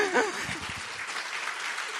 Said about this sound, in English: So let's clap for them again.